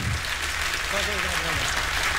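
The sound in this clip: Audience applause fills the room for a performer, a dense, steady wash of clapping that holds level throughout, with a voice briefly audible over it.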